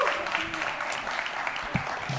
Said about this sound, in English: All right, give our contestants a big round of applause.